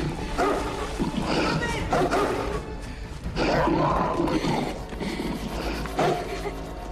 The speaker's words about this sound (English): It's a demon dog!